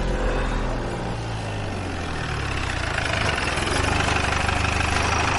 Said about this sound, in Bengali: চলুন স্যার আমি গাড়ি বের করছি